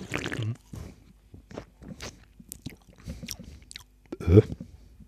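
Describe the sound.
Someone drinking a Hermann cola makes a few short, faint gulping and swallowing sounds in irregular bursts, with a louder, sharper one near the end.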